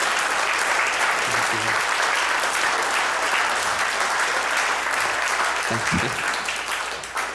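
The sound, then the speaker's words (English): Audience applause pours out in a dense, steady wash of clapping for about seven seconds. It holds an even loudness and eases off slightly at the very end. “I assume you guys were clapping. I'm very deaf. I don't know what's going on.”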